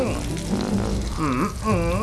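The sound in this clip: Food sizzling as it is stir-fried and tossed in a wok, a steady crackling hiss under people talking.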